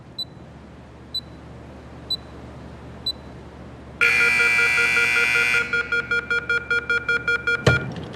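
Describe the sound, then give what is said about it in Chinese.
Electronic timer beeping after a door is locked: four evenly spaced short, high beeps, then a loud sustained electronic tone, then a quicker run of beeps ending in a sharp click, with no voices. “就这个滴滴滴这个声能不能给它关了？特像 CS 里边匪徒下包那声。”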